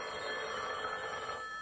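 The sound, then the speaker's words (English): A telephone bell rings in one continuous, steady metallic trill that lasts the whole short stretch, with no voices over it. “Certainly, my dear. You go right ahead and answer the phone.”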